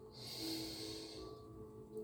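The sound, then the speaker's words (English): A slow breath drawn in through the nose during a guided breathing exercise, a soft, airy hiss that swells, holds steadily for about a second, then eases off. “In through the nose, out through the mouth. Breathe in,”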